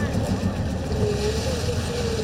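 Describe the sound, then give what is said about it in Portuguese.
Brazilian Navy amphibious tracked vehicle with steel tracks moving through deep water, giving a steady low engine rumble mixed with the wash of water, continuous and even. “O carro anfíbio lagarta tem capacidade para transportar até 22 pessoas e uma autonomia de até 7 horas. E ele consegue acessar áreas de difícil acesso. Agora mesmo, por exemplo, o nível da água deve estar a mais de 2 metros de altura.”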